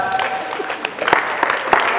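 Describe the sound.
An audience applauds and acclaims God at a church service, with dense, uneven clapping and sharp peaks mixed with raised voices, loud and steady throughout.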